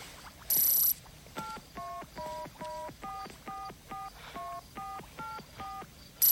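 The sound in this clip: Telephone dialing tones: a brief high beep, then eleven short touch-tone beeps in a quick, fairly even sequence, each with a slightly different pitch, all faint.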